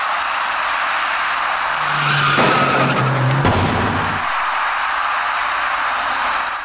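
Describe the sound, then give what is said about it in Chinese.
Tires skid and squeal as a white car turns left at an intersection and knocks down an electric bicycle rider. A sustained tonal squeal is followed by an abrupt broad burst, over steady traffic noise. “那辆白色小客向左转弯进入了路口，与此同时，一位电动自行车的骑车人直行而来。由于采取措施不及，白色小客把那位骑车人连人带车一起撞翻在路口里面。”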